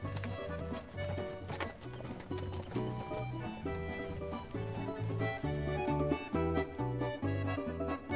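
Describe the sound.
Hooves clip-clopping as horses are ridden, a rhythmic beat that runs steadily throughout, layered over a musical backing of sustained tonal notes.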